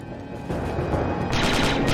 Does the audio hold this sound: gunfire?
yes

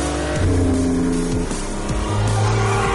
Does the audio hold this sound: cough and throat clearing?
no

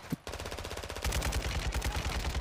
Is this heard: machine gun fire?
yes

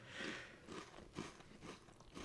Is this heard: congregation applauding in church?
no

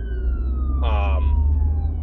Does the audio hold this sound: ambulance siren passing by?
yes

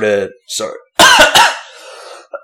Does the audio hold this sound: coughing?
yes

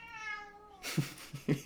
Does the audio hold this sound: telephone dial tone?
no

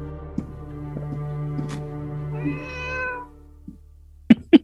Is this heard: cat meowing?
yes

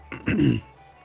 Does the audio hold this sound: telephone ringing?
no

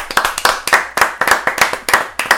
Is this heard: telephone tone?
no

